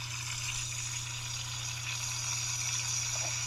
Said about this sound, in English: That is Moink bacon cooking.